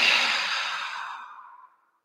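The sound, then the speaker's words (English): A long, soft exhale through the mouth comes during a guided breathing exercise. One airy, hissing breath starts fairly clear and tapers gradually to silence over nearly two seconds. “Just inhale deep through your nose, all the way to the top of your head, and then exhale through your mouth.”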